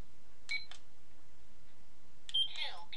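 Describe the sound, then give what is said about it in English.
An electronic apple-shaped clock gives a couple of short, high, faint beeps, then a brief burst of higher beeping chirps near the end, over quiet background. “It'll suddenly burst into life. It will, and I'll go, oh my word! Ooh, it beeps.”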